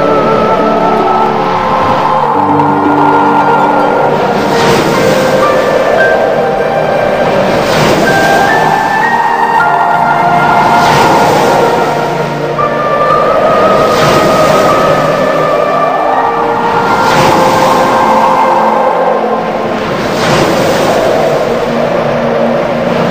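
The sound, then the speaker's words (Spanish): Wind sweeps over a moving sea in slow, rolling surges that swell and ease every few seconds, a loud, continuous rushing wash with no voices. “Escucha el viento cómo se hace cada vez más fuerte”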